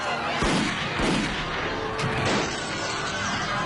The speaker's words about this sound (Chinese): 快跑！巡捕开枪了！